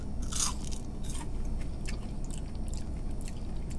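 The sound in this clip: Someone bites into and chews a french fry dipped in mayonnaise, with a few crisp crunches and moist chewing sounds over a steady low hum.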